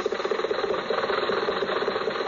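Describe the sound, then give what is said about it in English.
Car engine running steadily as a radio drama sound effect for a drive to the racetrack, a continuous mid-pitched drone with a fast, even pulsing and no voices. “So let's go back and pick up Jack and Rochester in the car.”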